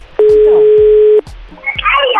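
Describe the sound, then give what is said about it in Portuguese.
A telephone line tone as a call is being dialed, one steady tone lasting about a second, followed by voices. “Você quer ligar? Vamos ligar. Vamos ligar pro boy.”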